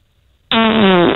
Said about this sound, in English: It's a fart. It's a fart with a bit of follow through.